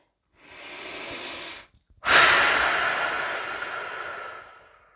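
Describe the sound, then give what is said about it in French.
Slow exhalation during a guided breathing relaxation exercise: a shorter airy breath, a brief pause, then a long, loud, hissing breath out that gradually fades away. “à l'expiration, libération des tensions. Avec notre souffle, nous accentuons cette libération.”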